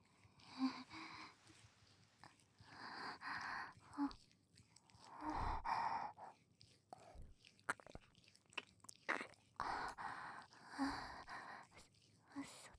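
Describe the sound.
Soft, wet ear-licking and mouth sounds come in a slow, irregular series of smacks and slurps, mixed with breathy whispering.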